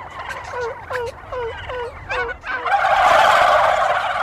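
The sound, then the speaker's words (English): A hunter's call imitating a female turkey: a series of short, sharp yelping notes in an uneven rhythm, followed by a louder, rough, rushing burst that holds to the end. “That means I've a perfect female turkey. Let's try that one more time. A female turkey, they're going to really get turned on by this.”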